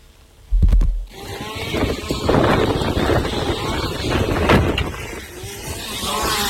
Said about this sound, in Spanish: Sí sonaba el viento en la zona cuando intentaban estos bomberos forestales acabar con el fuego.